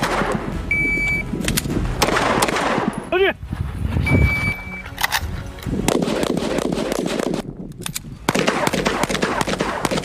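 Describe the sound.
Gunfire from firearms shooting training by special forces soldiers: a run of sharp, loud bursts and cracks over a dense, noisy background, with a few strong shots standing out.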